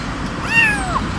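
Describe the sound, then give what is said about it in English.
A single meow from a cat just rescued from a home where nearly a hundred cats lived in filth. The clear, mid-pitched cry rises and then falls, heard alone over a faint background hiss. “This cat was just rescued.”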